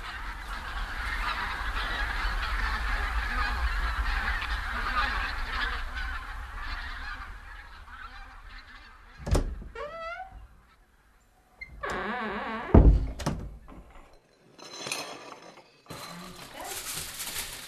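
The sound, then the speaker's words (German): Honking calls of a flock of migrating geese and cranes in autumn: a dense, steady chorus of massed calls, then separate loud honks and calls in irregular bursts with short quiet gaps. “Außer im Herbst, dann kommen die Zugvögel. Gänse und Kraniche, zigtausende, scheue Tiere, unruhig, fluchtbereit, ein Schauspiel.”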